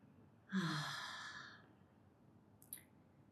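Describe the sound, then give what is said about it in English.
A single soft, breathy exhale through the mouth during a guided breathing exercise, faint and gradually fading over about a second, with a tiny click afterward. “Inhale and exhale through your mouth.”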